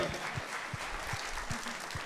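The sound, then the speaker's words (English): Faint church audience applause for a staff member called on stage, a soft, even patter of many hands with regular low thumps underneath. “Clap it up for Pete.”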